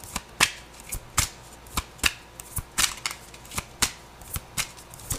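Tarot cards being shuffled by hand, with many crisp, sharp snaps and riffles in a quick, slightly uneven rhythm, clear and fairly quiet, with no talking.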